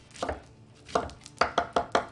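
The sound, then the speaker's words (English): A knife chops vegetables into julienne strips. A few scattered cuts come first, then a quick, even run of crisp knocks on the board. “There's two ways we could do a julienne cut. We could go slice right down the middle, really thin, and that works right there.”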